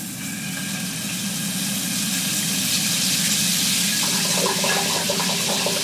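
Water runs in a steady, loud, unbroken rush while someone shampoos their hair, with a faint hum beneath the flow.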